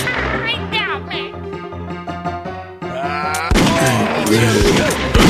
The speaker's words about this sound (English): He got me. He got me. He got me. Oh, he shot me.